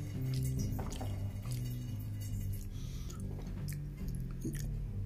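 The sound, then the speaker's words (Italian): Chewing while eating lunch: moist, squishy bites and mouth sounds that repeat steadily, fairly loud, with a low steady hum underneath and no talking. “siccome ora devo finire di mangiare tranquillamente auguro buon pranzo a tutti”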